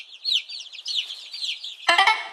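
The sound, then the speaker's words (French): A hen clucks in a few harsh, loud bursts near the end, after a stretch of continuous high-pitched chirping. “Ah tiens, en parlant d'œuf, voici la poule.”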